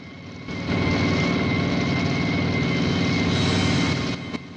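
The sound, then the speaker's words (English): Engine drone of a wartime convoy of motorcycles and Allied trucks approaching a German checkpoint by a bridge: a loud, steady rumble swells in quickly, holds, then drops away near the end. “convoy of motorcycles and Allies' trucks approach a checkpoint by a bridge.”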